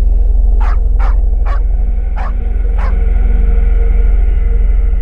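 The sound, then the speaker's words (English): Dogs barking: five sharp barks ring out over the first three seconds above a steady low rumbling hum, then only the hum remains. “What in the blazes is going on with those darn dogs”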